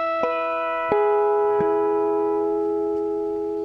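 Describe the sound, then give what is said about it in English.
Bell-like false harmonics are chimed on a guitar across four strings near the 14th fret. Clear tones are struck one after another and left ringing, so they blend into a sustained shimmering chord with no voice. “So those four harmonics, or false harmonics, will sound like this.”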